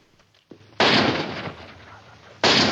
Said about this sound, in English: Shot in the back, McGill goes down.